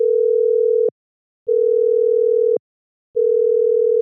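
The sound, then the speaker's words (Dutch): Ringback tone of an outgoing telephone call: a steady, mid-pitched electronic tone sounding in three long bursts separated by short silences, with no voices. “Ik ga hem nu bellen.”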